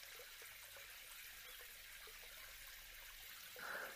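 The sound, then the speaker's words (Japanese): Water runs steadily as foam is rinsed off a body during a bath, a soft, even hiss that swells briefly louder near the end. “まずは泡を流していきます。”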